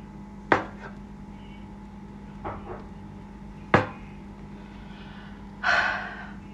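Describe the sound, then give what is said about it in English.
A knife chops burrito ingredients on a board. A few isolated sharp knocks come seconds apart, with softer taps between them and a brief hissing scrape near the end over a faint steady hum. “You chop everything and chop because I want little parts in my burritos.”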